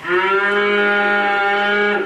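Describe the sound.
A single long moo from a cow on a village farm: a steady, low, richly harmonic call held for about two seconds, heard alone.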